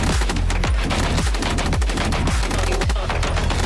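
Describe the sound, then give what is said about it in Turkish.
Loud, rapid machine-gun fire from a PMT-76 mounted on a mobile vehicle platform: sustained bursts of sharp, closely spaced shots with heavy low thumps that run without a break. “Videoda mobil araç platformuna entegre edilen PMT-76 kabiliyetleriyle göz doldurdu.”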